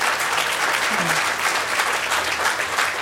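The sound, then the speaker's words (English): Audience applause at a live talk, a dense, steady wash of many hands clapping at an even loudness for the whole stretch, with no clear gaps or build. “you're clapping”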